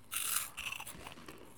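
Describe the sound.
Crunchy chewing of small food balls in an ASMR setting: a few faint, crisp crunching bursts early on, then softer, quieter chewing noises.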